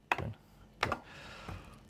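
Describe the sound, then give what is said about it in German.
Buttons are pressed during a colour-word reaction speed test: three distinct, clicky taps spaced well apart, quiet and with no speech. “Bei diesem Test bekomme ich Farben als Wörter angezeigt. So schnell wie möglich soll ich dann die passenden Knöpfe drücken.”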